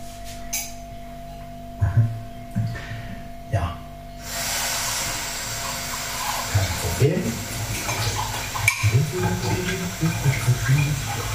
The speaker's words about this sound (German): Ich werde jetzt die Tasse wieder waschen.